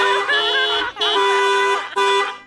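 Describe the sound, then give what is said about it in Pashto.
A car horn honking in three long, loud blasts close together, the last one cut short, each with a bright, buzzing tone. “اړو په دې خوشحالۍ کې به یو بل هارن درته ووم”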